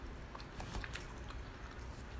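Soft chewing of a chilled IKEA cream puff with a thick custard filling, faint, moist mastication with a few crisper bites scattered through it and no talk.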